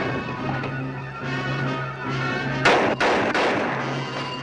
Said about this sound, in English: grabs the gun and fires at the clone